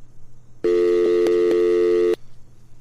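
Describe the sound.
A telephone busy signal sounds after a call drops: one steady, buzzy electronic tone lasts about a second and a half, loud and alone over a faint low hum.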